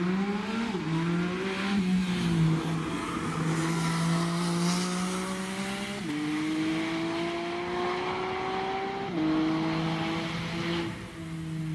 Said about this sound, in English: Yeah, I saw the GT4 RS on the ring yesterday. Do you want to hear it? I've got the video here. I can play it.